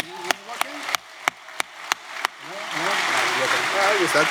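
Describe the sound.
Audience applause welcomes a speaker at a talk on home automation. A few sharp, separate claps come first while a voice speaks, then a broad, steady patter of clapping swells in and holds to the end.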